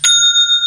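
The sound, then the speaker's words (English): An old cash register bell rings as the drawer opens: one bright, high metallic ding that sustains with a slight pulsing shimmer for under a second. “Some of us may remember the old cash registers that require you to input the amount of the sale and then pull a handle. When the handle is pulled, you get that bell sound and the cash drawer opens up.”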